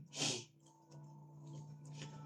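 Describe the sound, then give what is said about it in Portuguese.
An elderly man clears his throat, giving one brief rasping burst that is followed by a faint, steady hum. “o pigarro do vovô, a gente pega essas friagens, daí vai tacando a garganta”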